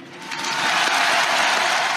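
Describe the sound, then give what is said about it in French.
Crowd applause for a funeral cortege moving up rue Royale in Paris, between the Place de la Concorde and the Madeleine church. Dense, steady clapping swells slightly after the start, then holds at a full level. “pour lui dire merci, pour qu'il ne meure jamais, d'applaudir Monsieur Johnny Hallyday.”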